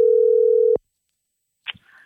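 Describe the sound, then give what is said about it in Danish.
Telephone dial tone while calling back: a steady, low, unbroken tone lasts under a second and cuts off with a click. Silence follows, then a brief faint sound. “Vi ringer igjen.”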